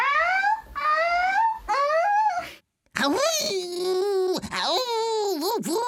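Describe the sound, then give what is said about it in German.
Harbour seal pup calling: nasal, wailing cries with a wavering pitch, three short rising calls followed by one long, loud, bending cry that dips and rises several times. “Das hört sich so an, wenn ein Seehundbaby ruft.”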